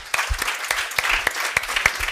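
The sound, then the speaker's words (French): Congregation applauding during a church service: steady, dense clapping with a few sharper individual claps standing out, heard alone without talk. “Amen, on peut applaudir Jésus.”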